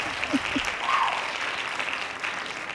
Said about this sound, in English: Hand claps on that as we welcome back